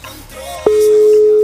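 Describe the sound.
A steady telephone busy-signal tone from a call that goes unanswered comes in abruptly partway through and holds at one even, mid pitch until the end, after a short stretch of murky background sound.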